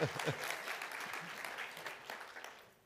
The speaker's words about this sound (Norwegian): Vi gir Edvard en god applaus mens han springer der